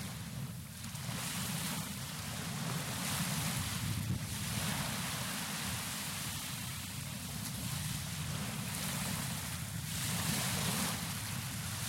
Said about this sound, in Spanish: estéreo del mar, cerca, o sea, a un metro de la llegada del agua a la arena.